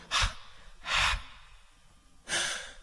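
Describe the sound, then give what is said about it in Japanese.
Three forceful exhales are heard during a breathing exercise that teaches emptying the lungs completely. Each is a loud, breathy rush of air, separated by quiet pauses, with the last one coming after a longer gap. “じゃあ吐いてみましょう。せーの、吐き切った後もっと吐いて、吐き切った後もっと、”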